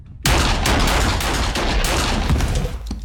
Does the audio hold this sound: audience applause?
no